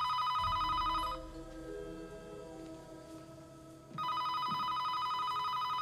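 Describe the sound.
A telephone rings in a hall with two long, bright electronic ring bursts. The bursts are separated by a pause of about three seconds, and the ringing is fairly quiet overall.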